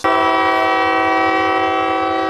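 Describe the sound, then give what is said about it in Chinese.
A China-Europe freight train loaded with auto parts departs a rail logistics base in Baoji, bound for Russia, sounding a loud, sustained, steady horn blast that holds one rich, chord-like tone for the whole clip. “满载汽车零部件的西8157次中欧班列从宝鸡阳平铁路物流基地驶往俄罗斯夏诺夫哥罗德的汽车工厂”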